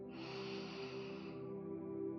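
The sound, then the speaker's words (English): A slow, steady inhale during a breathing meditation, a soft airy breath lasting about two seconds over a low, constant tone underneath. “This is where I exist and breathe. Inhale.”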